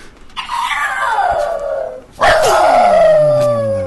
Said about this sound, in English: Some bungee jumping dog.